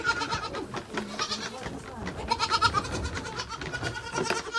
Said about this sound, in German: Den etwas älteren Zicklein bringe ich bei, immer zu sechst an einem Eimer mit 6 Nuckeln zu trinken.